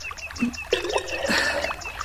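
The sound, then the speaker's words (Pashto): Water is poured to fill a jug, making an irregular trickle of gurgles and small splashes at a fairly steady level throughout. “دا دې منګی ډکوم.”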